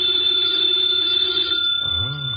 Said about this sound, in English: Should never ignore a phone call.